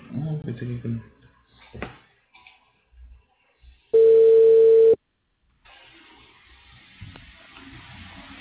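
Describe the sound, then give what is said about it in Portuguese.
A telephone tone sounds while a phone call is placed: one steady, clean, mid-pitched beep lasting about a second, with voices talking before it and low noise after. “Fazer uma ligação aqui, tá?”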